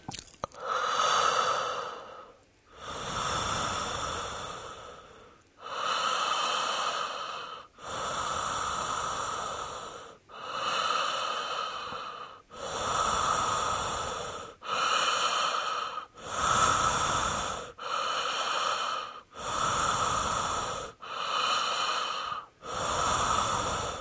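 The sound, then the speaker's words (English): Slow, even breathing with the mouth open: long, soft airy inhales and exhales follow one another at a steady, unhurried rhythm, each breath swelling and fading smoothly, with no talking. “I suggest doing a very slow, even breath, even inhale and exhale with the mouth open.”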